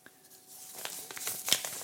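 Soft paper tearing and crinkling as a handwritten letter from New Zealand is opened, a few brief, faint rustles and crackles growing slightly busier toward the end, without voices.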